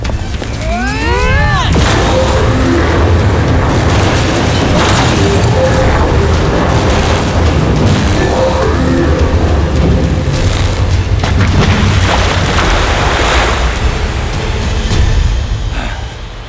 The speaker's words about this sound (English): Focus a combined power beam at the center of the machine.